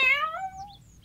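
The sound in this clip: A small cat meows once, alone and clear. The meow rises a little in pitch and then fades out in about a second.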